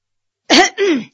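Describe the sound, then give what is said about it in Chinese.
A person clears their throat in two short, rough bursts, loud and alone with no talk around them. “便清了清嗓子说”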